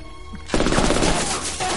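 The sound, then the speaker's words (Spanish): Gunfire in an action thriller film scene: after a quiet moment a sudden, loud burst of shots begins and continues as rapid, dense firing to the end. “Mira pensativo, se levanta y abre fuego. Chaos lo hiere.”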